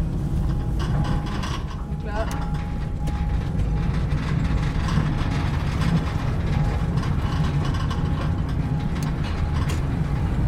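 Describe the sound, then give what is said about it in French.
Steady, loud mechanical rumble and grinding from a salt mine locomotive climbing a grade while sand is dropped onto the rails for grip. The noise runs continuously and evenly throughout, with a faint sustained tone rising above it at times. “Maintenant, je sable en même temps que je monte. Et on sent que la locomotive a de nouveau de l'adhérence.”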